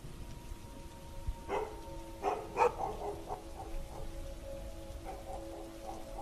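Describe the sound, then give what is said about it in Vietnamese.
Rain falls steadily, a soft continuous patter on a surface with a few louder taps and splashes standing out, and no voices. “Ở bên ngoài, mưa đã bắt đầu rơi dày hạt hơn.”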